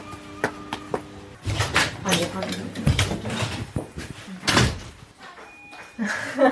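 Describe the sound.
A door is opened with mechanical clunks and knocking handle or latch noises, while people talk over and around the sounds.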